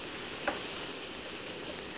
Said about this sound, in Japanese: ハムに少し焦げ目がついたぐらいの方が、美味しく感じられますね。